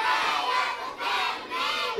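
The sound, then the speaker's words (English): Students chant and shout school cheers together in a cafeteria, loud crowd voices rising in three surging phrases with brief dips between them. “The last day starts off in the cafeteria. Students perform the school chants and cheers one last time.”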